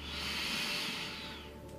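A deep inhaled breath taken during a guided yoga breathing exercise, one long, steady, airy hiss that swells and then slowly fades over nearly two seconds, with no talking.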